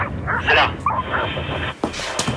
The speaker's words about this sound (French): Là, par là, lâchez pas les chiens, tenez.